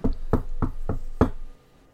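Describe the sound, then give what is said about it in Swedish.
Five firm knocks on an office door, slightly uneven in rhythm, each one a dull, low thud, followed by quiet. “ja, visst, ni knackar och ni blir genast insläppta.”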